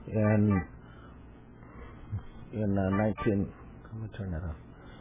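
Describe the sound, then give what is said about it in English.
A telephone ringing, a few short bursts of steady tonal ring spaced apart, with quieter sounds in the gaps between them. “Judges and doctors. They can't turn off the phone. I forgot to do that.”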